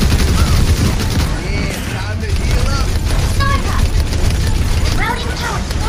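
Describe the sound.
Rapid video game gunfire in dense, continuous bursts that barely let up for the whole stretch, loud and busy, with voices mixed in underneath.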